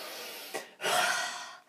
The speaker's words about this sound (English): the one strategy that has worked well with some of my sillier kids is we talk about taking a really deep breath and then letting their whole face go slack as they breathe out. So it's like...